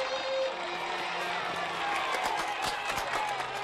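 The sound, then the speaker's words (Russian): Applause and crowd noise from children, parents and staff at a summer camp, a dense, steady patter of clapping that continues without a pause. “Дынин начинает улыбаться и аплодирует. Дети, родители и персонал лагеря смеются и тоже аплодируют.”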